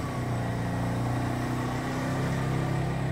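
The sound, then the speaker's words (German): A car pulls away slowly in first gear, its engine giving a steady, loud mid-pitched drone that holds throughout without breaks or talk. “Ich bin jetzt im ersten Gang. Slowly. Langsam.”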